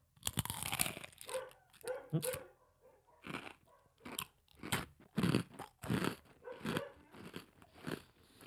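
A fortune cookie is cracked open and bitten, giving many crisp, loud crunches and crackles in irregular bursts.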